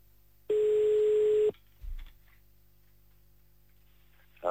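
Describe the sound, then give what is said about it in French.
A telephone ringing tone on an outgoing call to La Louvière, Belgium: one steady mid-pitched tone lasting about a second, then a brief low thump and quiet line hiss. “Allez, c'est parti. On appelle à la Louvière pour le messager de Dieu.”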